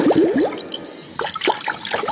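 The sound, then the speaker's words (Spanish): Bubbly underwater gurgles of a character swimming fast at nearly 30 meters depth in a radio drama: a few quick rising chirping swirls at the start, then scattered watery pops and bubbles after a short lull. “Calimán avanza velozmente bajo el agua a una profundidad de casi 30 metros.”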